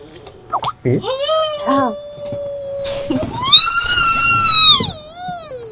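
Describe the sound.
A person squeals in a high, drawn-out voice. A long steady tone gives way to a louder, higher squeal that rises and falls, after brief vocal sounds at the start.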